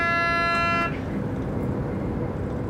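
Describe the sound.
A train horn sounds on the left-bank Middle Rhine line between Bingen and Koblenz: one steady, chord-like blast lasting under a second that cuts off into a continuous low rumble of the moving train.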